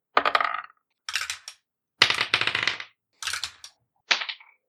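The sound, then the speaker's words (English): Dice clatter and rattle across a table in five separate quick bursts as players roll initiative in a tabletop role-playing game, with no talking between the rolls. “When the dust is cleared, I'm going to have everyone roll initiative.”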